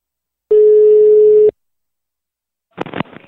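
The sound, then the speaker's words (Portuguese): Ringback tone of an outgoing telephone call to a home line, one steady, mid-pitched tone lasting about a second, then silence before a voice answers. “eu vou ligar agora pra Nereide. Liga lá.”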